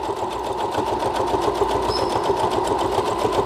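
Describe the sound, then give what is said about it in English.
A sewing machine stitches at a fast, steady pace, its needle producing a rapid, even mechanical chatter over a low motor hum, continuous and alone throughout. “I'm going to sew a little faster because I'm feeling bold.”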